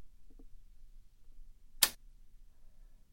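Keys thrown across a room land with one sharp, bright metallic clack, a brief burst standing alone over a faint low background hum.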